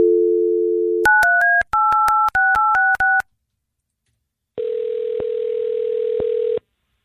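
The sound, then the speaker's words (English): Steady telephone dial tone, then a quick run of many touch-tone key beeps dialing a number for a call. After a short silence, a steady ringing tone follows, broken by a few faint clicks. “we're going to get your cousin Nick on the phone. Let's just get right to it.”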